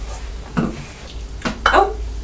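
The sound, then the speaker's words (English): A green toy pot rolling around makes a few light clattering knocks against a hard surface, spread unevenly over a low, steady hum. “It's the green pot rolling. Whoops. Oh dear. Oh dear. Oh, it's gone the other way. Look at that, it's rolling round and round.”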